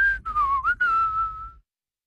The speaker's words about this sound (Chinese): 钟文忍不住吹了声响亮的口哨，脚步也轻快起来。